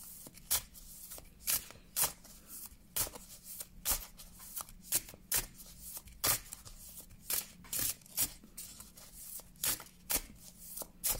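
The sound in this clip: Fortune-telling cards being shuffled by hand in a steady run of crisp, papery riffles. Many short bursts repeat at a fairly even rhythm over a faint background, with no talking.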